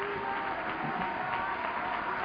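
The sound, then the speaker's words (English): Church audience applause: a dense, steady wash of clapping that holds at an even level for about two seconds, with a sustained tone underneath. “Would you give the Lord one great uproarious round of applause?”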